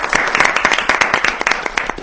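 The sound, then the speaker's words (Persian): An audience applauds a group of guests on a Persian-language program, loud, dense, rapid clapping that stays steady throughout with little variation. “گروه دوم رو هم تشویق میکنیم.”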